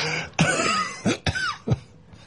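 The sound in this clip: A person coughs in a cold Tibetan house, with a few harsh, rasping bursts in an uneven rhythm and throaty, voiced rumbles between them.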